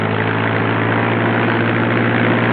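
A propeller aircraft engine drones while the plane is in flight. It gives a steady, throbbing low hum with layered harmonics and a broad airy roar, holding an even loudness throughout.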